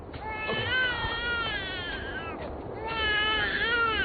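A hungry infant who has not eaten for a day and night cries in continuous, wavering high-pitched wails with a louder stretch at the start and another toward the end.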